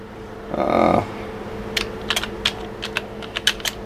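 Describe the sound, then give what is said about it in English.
Typing on a computer keyboard into a document: a scattered run of light, sharp key clicks in uneven bursts. No one talks. “I'm just going to type that in to this little document.”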